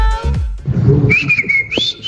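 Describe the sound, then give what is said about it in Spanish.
A person whistles a sustained, shrill high note that bends upward near the end, following a moment of low rumbling background noise. “Ya nos ha silbado, ¿no?”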